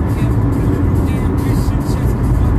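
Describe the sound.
Engine and road noise while a car is being driven, a loud, continuous low rumble with a steady hiss and no clear changes.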